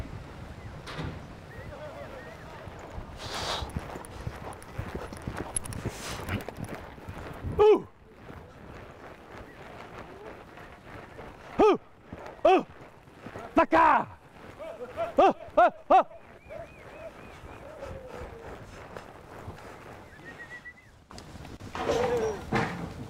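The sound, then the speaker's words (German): Hoofbeats of gauchos' horses driving a herd across open ground, with a few clusters of sharp thuds and clops rising above a steady rushing background. “Die Herde folgt dem Leittier über die gesamte Fläche. Die Gauchos und Tierarzt Sebastian treiben hinterher. Sebastian sitzt schon seit 30 Jahren im Sattel.”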